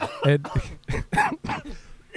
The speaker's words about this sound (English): okay, we both start coughing.